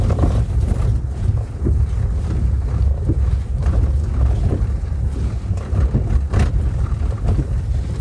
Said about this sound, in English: although it is a bit bumpy, you can probably hear the vehicle as it goes across these rough tracks.